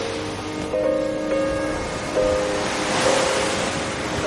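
Sea waves washing onto a sunny beach shore in a breeze, a steady airy wash of surf that swells gently a few times and stays fairly soft throughout.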